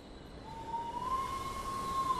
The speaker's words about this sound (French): Le train arrive en gare de Lyon-Perrache.